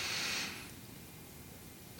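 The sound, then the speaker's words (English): A deep breath drawn by a storyteller voicing a character, a brief, soft, airy inhalation at the start that fades quickly into near silence. “and breathes deep”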